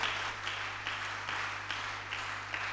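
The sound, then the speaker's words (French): Church audience claps in unison, acclaiming God and a sister. Faint, rhythmic bursts of clapping repeat at a steady beat over a low constant hum. “Acclamons pour Dieu et pour la sœur.”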